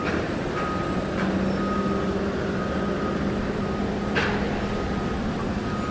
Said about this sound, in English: The noises you're hearing are the tipple.